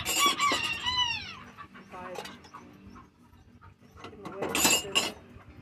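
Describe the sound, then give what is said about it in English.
Chickens clucking and squawking in shrill, rising calls, with a louder burst of cackling near the end and a voice speaking among them. “I need to sell some chickens, apparently. Uh, chicken.”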